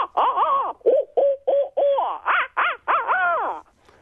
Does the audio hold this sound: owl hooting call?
yes